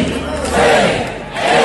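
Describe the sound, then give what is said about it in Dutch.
A crowd counts down aloud and breaks into a loud cheer at the 4 a.m. start of the 50 km walk of the Nijmegen Four Days Marches. The massed voices swell quickly into a brief, full roar. “Om 4:00 vanochtend vertrokken die eerste wandelaars voor 50 kilometer vanuit het centrum in Nijmegen. En dat klonk zo.”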